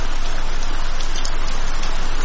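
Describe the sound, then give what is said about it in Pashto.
Heavy rain pours down in a steady, dense hiss, loud and unbroken throughout, with no voices. “باران تیز شو، داسې شرشوری شو لکه ناوې چې له اسمان را خوشې شي.”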